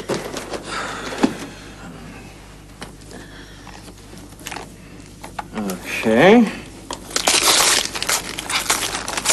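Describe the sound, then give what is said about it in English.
Paper crinkles and tears as a wrapped present holding a tape is opened: scattered crumpling and ripping bursts, louder near the end, with voices speaking at times. “All right, now you open your present.”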